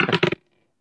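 Dice rolled for a tabletop role-playing constitution saving throw, making a short, bright clatter of a few quick clicks that stops abruptly into silence.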